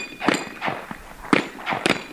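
Rounds strike a three-head swinging steel target during a shooting competition, giving several sharp metallic clangs and dings in an uneven rhythm. The impacts ring out clearly, with no talk.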